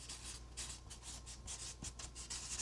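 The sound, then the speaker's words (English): Writing on a board: many quick, scratchy strokes follow one another in an uneven rhythm. The sound is bright and hissy, at a steady moderate level, with no talking. “I'm going to write them on my board here.”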